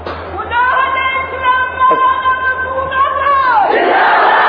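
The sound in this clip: A crowd at a speech gathering shouts a slogan in unison, a loud drawn-out chant on a held, voiced tone that sags in pitch and breaks off near the end.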